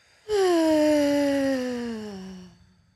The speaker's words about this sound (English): Okay, everyone, take a deep breath. And release.